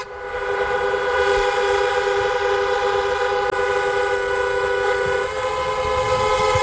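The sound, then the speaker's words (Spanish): Car horns blare from drivers queuing at the Tarajal border crossing from Ceuta into Morocco. One loud, steady horn tone is held without a break for the whole clip. “Anoche hubo bastante revuelo, muchos coches para entrar en Marruecos y bastante incidencia. Este es el sonido de los conductores.”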